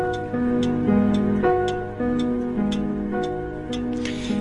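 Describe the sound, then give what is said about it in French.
A metronome ticks in sharp, evenly spaced clicks, about eight in all, over sustained piano notes that change pitch in a repeating pattern. The ticks sit clearly on top of the music, and no one speaks. “si vous liez ces deux bruits, ça doit être un métronome, le piano.”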